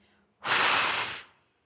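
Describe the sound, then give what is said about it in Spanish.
A full, forceful exhalation before a breath-hold: one loud, steady rush of breath lasting about a second, heard alone and ending cleanly into silence. “20 segundos, 15 segundos, exhalo totalmente.”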